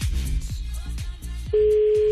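A telephone tone from an outgoing call enters partway through as a steady, unbroken mid-pitched beep, following a run of rhythmic, decaying plucked-sounding notes.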